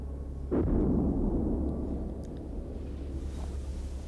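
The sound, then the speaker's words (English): Distant gunfire at night comes as a single dull, low boom that rolls into a faint lingering rumble before fading. The rest is quiet, with no voices. “listens to the guns”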